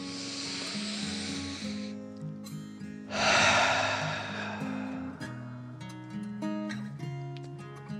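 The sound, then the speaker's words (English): A slow deep breath in and out, heard as two long, soft airy swells of breath noise over gentle, steady background music, with no talking. “He took a deep breath in and out,”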